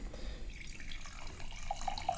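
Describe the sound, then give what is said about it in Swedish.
Wine is poured into a glass as a quiet, steady trickle and splash, with a few brief bright notes near the end. “Så där fyller du på lite vin till mig.”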